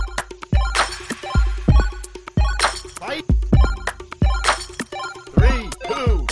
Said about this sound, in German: Oh, wir haben unseren Trailer, unser Jingle. Let's go.